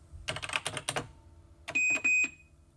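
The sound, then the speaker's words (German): Typing a key command on a computer keyboard: a quick run of several clicking keystrokes, a short pause, then a few more key presses joined by a pair of high electronic beep tones. “Drück mal Control PY 371 Return.”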